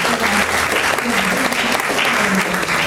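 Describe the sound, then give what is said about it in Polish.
Audience applause at a journalism awards ceremony as a winner is called up, with dense, steady clapping holding at an even loudness for the whole three seconds. “Brawa dla”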